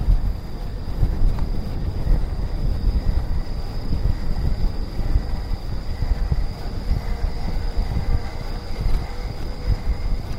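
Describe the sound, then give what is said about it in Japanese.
A generator powers lights at night on a road without streetlights, producing a continuous low rumbling drone with a thin, high steady whine on top, unchanging throughout. “発電機の音うるさいかな。”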